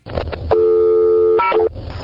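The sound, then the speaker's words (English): Payphone dialing tones: a loud, sustained electronic tone gives way to a shorter tone of a different pitch, then cuts off. “You go to a payphone, dial zero, and you ask your operator to dial a local number for you.”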